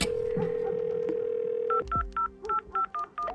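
A mobile phone is dialled: a steady dial tone gives way to a quick run of short keypad beeps, clean and alone with no voices.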